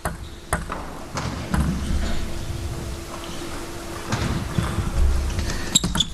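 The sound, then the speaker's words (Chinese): Light, sharp ticks of a table tennis ball in a professional match as a serve clips the net, a few isolated clicks over steady background noise. “换了一个逆侧，但是发球擦网。”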